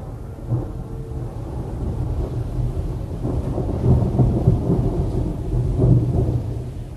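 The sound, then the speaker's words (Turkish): Heavy rain falls during a thunderstorm: a steady, dense hiss of rain under continuous low, rolling thunder that swells a little in the middle and latter part. “Yağmaya başladı bile. Yağmura bakın.”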